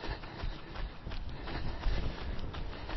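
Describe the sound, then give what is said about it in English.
A runner's footsteps as they jog back to the start after a 200 m sprint: a steady rhythm of soft, even thuds over a continuous low rumble. “Okay, I'm around 100 metres, I'm going to jog now.”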